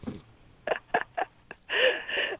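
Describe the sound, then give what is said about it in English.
Telephone number being dialed: four short, evenly spaced keypad tones followed by a longer sustained tone, all faint against a quiet background, with no talking. “let me dial that right now”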